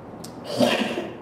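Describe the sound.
A single sneeze, fairly quiet, opening with a brief sharp puff and followed by a longer breathy burst of noise.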